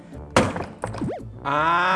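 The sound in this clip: A suitcase is smashed to test its zipper lock, with two heavy, blunt thuds about half a second apart, followed by a sustained ringing tonal sound.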